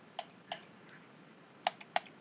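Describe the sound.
A few sharp, dry clicks from pressing a button on a computer, spaced irregularly with short gaps and two clustered near the end, with no voices.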